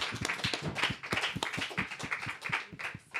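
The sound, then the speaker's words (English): Applause for panelists at a community dialogue session: a faint, steady patter of many handclaps that carries on for the whole clip without a pause. “let's have one more round of applause for the panelists”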